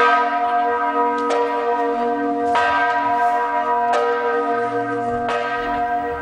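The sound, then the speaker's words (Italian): Powerful church bells ring out in a loud, sustained chord of overlapping tones, with fresh strikes at steady intervals of a little over a second keeping the ringing going throughout. “abbiamo recuperato un suono possente di campane”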